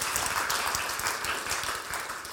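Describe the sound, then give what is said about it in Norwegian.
Congregation applause during a church meeting, a continuous rustling wash of many hands clapping together, moderately loud and fairly steady, easing slightly near the end, with no voices. “la oss gi Jesus en applaus for det, for det skjer.”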